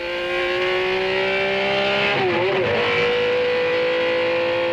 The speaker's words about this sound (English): Then accelerate again for this short straight.